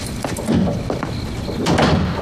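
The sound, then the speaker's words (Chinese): A door being shut, with a few dull knocks and a sliding rustle over a steady background hum. “门关上。”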